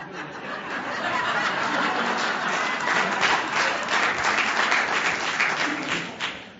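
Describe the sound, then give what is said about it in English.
Dense, steady crowd applause from an audience at a realtors' association gathering. It holds at an even level throughout, with a few faint chuckles mixed in and a brief swell near the end. “that clap was louder than the clap for me.”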